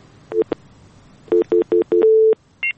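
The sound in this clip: Telephone line tones signal an incoming caller on a radio phone-in show. A short beep comes first, then a run of four quick beeps and a longer sustained tone, and a final higher-pitched beep.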